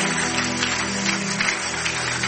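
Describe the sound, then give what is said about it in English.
Congregation applause at a church service right after a closing prayer: dense, steady clapping that holds at an even level for the whole stretch, with no pause or clear single claps standing out. “I think we should give God another applause.”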